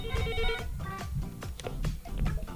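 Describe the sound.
A telephone rings with an incoming call, heard as a faint electronic ring with bright repeating tones at the start, followed by softer mixed clatter.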